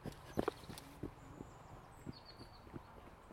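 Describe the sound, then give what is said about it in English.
A running club goes past on a footpath: faint, quick, irregular footfalls patter by, with light wind noise behind them. “Like a running club going past.”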